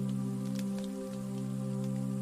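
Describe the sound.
Rain on a rainy day outside a bakery falls in a soft, continuous patter with scattered drop taps, beneath a sustained low droning hum that holds steady throughout.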